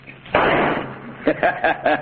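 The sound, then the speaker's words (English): A single rifle shot is fired at a branch stub on a scrub pine: a sudden loud crack with a long noisy tail, followed by a man talking. “Somebody might hear the shot.”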